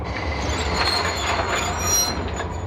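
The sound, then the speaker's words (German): A locomotive braking, its wheels giving a continuous high metallic squeal over a loud, steady low rumble of rail noise. “Die Lok hält vor dem weißen Tuch mit einem Ruck an.”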